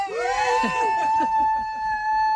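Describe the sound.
A child screams in one long, high-pitched cry that swells at the start and then holds steady, with talk underneath.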